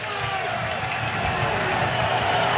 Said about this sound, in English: Nissan Stadium getting loud as Geno Smith and the Jets have it at their own 12-yard line.